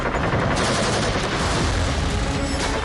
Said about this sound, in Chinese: 板子机上暗堡里的机枪疯狂扫射，子弹像暴雨一样倾泻而下